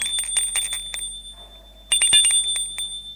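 A doorbell rings at an apartment door in an old building: a rapid, high metallic trill, then a short quiet gap, then a second burst of the same bright, buzzy ringing.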